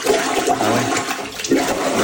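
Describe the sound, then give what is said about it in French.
Loud gurgling, rushing water fills a toilet bowl as it backs up during heavy rain, a continuous churning surge with no voices. “Grosse pluie, là, ça déborde. Les gens filment leur bol. Écoutez bien le son, c'est impressionnant. C'est le retour d'eau.”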